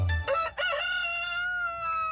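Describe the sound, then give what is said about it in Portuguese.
A chicken crows once in a long, loud, strongly harmonic call that holds a steady pitch for about two seconds before trailing off, heard alone. “Ó, a galinha cantou bonito, hein?”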